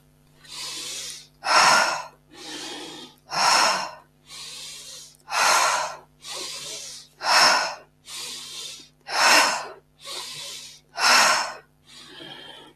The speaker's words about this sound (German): Schau mal, ob du noch intensiver einatmen kannst.